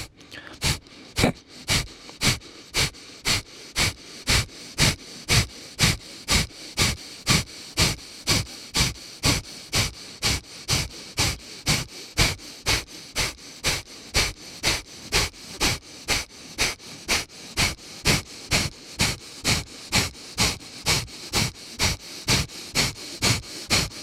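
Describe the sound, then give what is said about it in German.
Forceful breaths pushed out with the belly muscles during a breathing exercise, repeated many times as sharp, breathy puffs in a fast, steady rhythm. Each burst is short and hissing, and there is no talk. “Lass den Brustkorb erhoben und beginn nur mit dem Bauch kräftig die Luft hinauszustoßen mit diesen Muskeln.”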